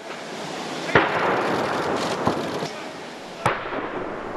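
A ceremonial gun salute is fired during a state welcome on the grand lawn of Buckingham Palace. Three booming reports land at spaced intervals over steady background noise.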